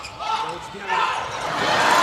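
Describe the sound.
A volleyball serve is struck during a match against Japan, a dull ball impact set against a steady crowd roar, with voices talking over it.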